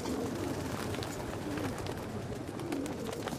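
A pigeon coos in low, soft, rolling phrases, with a few separate coos rising from steady background noise.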